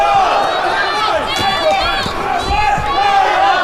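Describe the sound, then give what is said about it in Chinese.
A fan club cheers on a player at a live match. A loud, continuous mass of voices rises and falls with repeated chanted shouts throughout. “现场也有朱帅的粉丝团啊，在为朱帅加油助威。”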